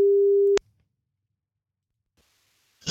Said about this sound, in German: Wollen wir mal anrufen? Los geht's. Lass mal gucken, ob sie rangeht.